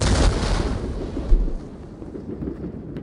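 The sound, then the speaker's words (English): Artillery guns firing in a battle: deep, loud booms with heavy low rumble, one at the start and another sharp blast midway, then rolling noise that slowly fades, with no voices. “Put on the gas masks. Get ready to fire.”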